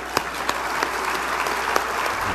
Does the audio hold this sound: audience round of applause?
yes